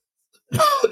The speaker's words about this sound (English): Have to excuse this cough.